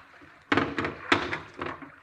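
A handgun tossed onto a saloon floor, landing with a few dull thunks and knocks in quick succession that bounce and settle, with no voices.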